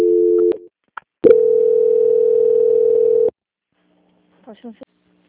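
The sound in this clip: Telephone tones sound as a call on a bank's quality-control line is transferred: a short steady tone, a brief click, then a long, even, unbroken tone of about two seconds, followed by a pause and a faint voice.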